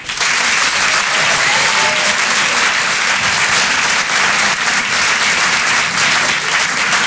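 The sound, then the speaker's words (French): Sustained applause fills a comedy club as the audience welcomes a comedian to the stage, a dense, loud, steady clatter of many hands clapping without a break. “Je vous demande de l'encourager, de faire un maximum de bruit, s'il vous plaît, pour Paco.”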